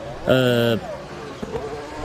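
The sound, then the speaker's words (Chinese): A Formula One race car engine fires back up after stalling on track at the Singapore Grand Prix, a brief steady buzzing note lasting about half a second that cuts off and gives way to low background noise. “斯德罗尔的赛车呢，刚才呢也是突然间停在了赛道当中，好在呢现在呢是可以重新启动。”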